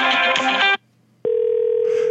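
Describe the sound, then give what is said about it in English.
A phone sounds off: a burst of layered electronic tones, then a short silence, then a single steady electronic tone that holds to the end. “was that her cell phone?”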